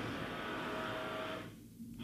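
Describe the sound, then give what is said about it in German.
A printer starting up on its own gives a steady mechanical whir with a faint tone, which cuts off near the end and then briefly resumes. “der Drucker. Hat er sich selbstständig gemacht? Mhm. Ich dachte, was geht denn jetzt ab?”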